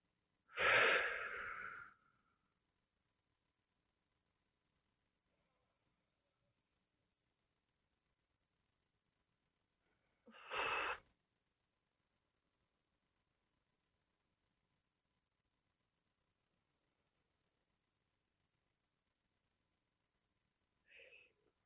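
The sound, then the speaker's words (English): Three deep breaths, each a breathy rush of air; the first is long and loudest, the second shorter, and the third brief and faint, with long stretches of silence between them. “why don't you just take three deep breaths with me, just like this.”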